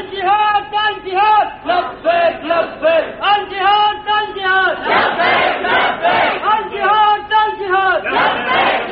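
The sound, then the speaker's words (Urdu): Crowd chanting a slogan in unison at a rally: loud, rhythmic massed voices repeat a short phrase over and over, with strong surges and brief dips between each call. “ایک اور نعرہ، جنگ رہے گی جنگ رہے گی، شیعوں سے اب جنگ رہے گی جنگ رہے گی۔”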